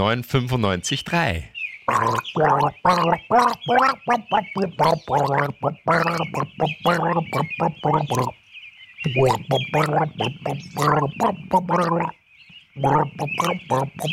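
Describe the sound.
A person gargles the melody of a song, producing a continuous bubbling, throaty pitched warble broken by a few brief pauses.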